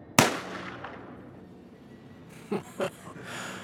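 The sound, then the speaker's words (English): A gunshot in a confrontation: one sharp, loud crack with a long fading tail, followed a couple of seconds later by two shorter, fainter bursts of noise. “Oh, Ezra. You never could shoot worth a damn. You've got 5 shots.”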